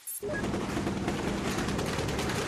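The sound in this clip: Heavy gunfire from fierce street gun battles in a Tripoli neighborhood starts abruptly and continues without a break, a dense, loud crackle of many rapid overlapping shots.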